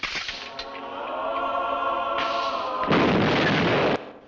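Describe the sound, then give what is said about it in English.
Holy hand grenade exploding in a comedy film scene: a sustained tonal swell gives way to a loud, roaring blast lasting about a second that cuts off abruptly. “We have the holy hand grenade.”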